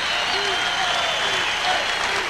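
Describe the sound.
Audience applause at a live salsa concert as a celebrated Caribbean composer is introduced: a loud, unbroken roar of clapping from a large crowd, with a few voices calling out over it.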